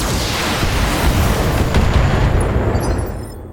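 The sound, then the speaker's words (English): A big explosion in a video game erupts as a single heavy, rumbling roar that holds loud and dense before fading away at the end. “That was a big blast.”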